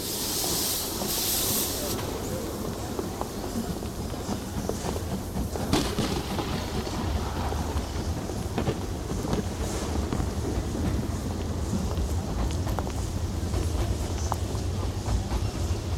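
Railway station platform ambience with a steam train: a steady, dense rumbling hiss runs throughout, with a brighter hissing burst at the start.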